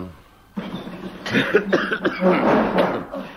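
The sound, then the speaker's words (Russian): Coughing in a dramatized scene: after a short quiet start, a run of harsh, rasping coughs and throaty bursts follows close together, fairly loud, with no talk. “Что такое, кашель замучил?”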